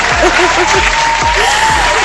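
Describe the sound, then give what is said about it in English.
Loud, steady crowd applause, with dense clapping sustained throughout. “You do deserve a round of applause. Come on now.”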